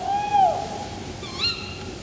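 An owl hoots twice at night on an icy Antarctic coast. The first clear tonal call holds steady and then dips, and the second is shorter and higher, both over a low, steady background hiss.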